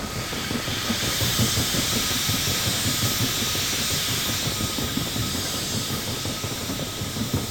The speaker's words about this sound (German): In diesem Schweigen hatte das Röcheln des Dampfers etwas Beunruhigendes und Klagendes.